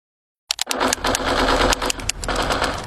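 Rapid gunfire from a video game being played, a dense, loud, continuous clatter of shots that bursts in abruptly and keeps going without pause to the end.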